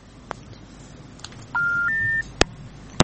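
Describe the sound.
Disconnect tone on a phone-in call line: two steady electronic beeps, the second pitched higher than the first, set between a few sharp clicks over faint line hiss.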